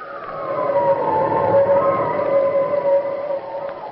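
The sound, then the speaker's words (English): Howling winter wind as a loud, steady, whistling moan that holds a sustained, slightly wavering tone throughout. “Listen to that wind, Ellen. Has winter come so soon?”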